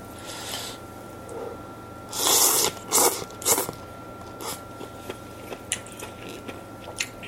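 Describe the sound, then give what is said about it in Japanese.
Eating canned tantanmen made with thin konjac noodles: a cluster of louder wet chewing and slurping bursts, then a string of small, soft mouth clicks, with no talk. “F1 さんからいただいた担々麺いただきます”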